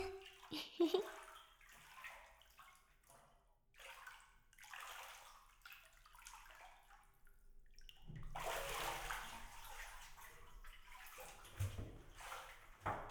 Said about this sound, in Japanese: じゃあお兄さん、シャワーの方に行きましょうか。まずは頭の方からじっくり洗ってあげますね。